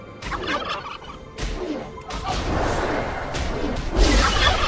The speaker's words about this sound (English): if you kill 15 turkeys in 3 minutes, you get an achievement. But when you do, you're attacked by a bunch of them, and they sound like this.